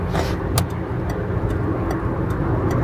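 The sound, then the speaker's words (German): A car cruising on a German Autobahn, heard as a steady, dense roar of engine and road noise with only faint ticks and clicks on top, even in level throughout. “So, jetzt bin ich doch ganz gemütlich auf der Autobahn, hat doch geklappt.”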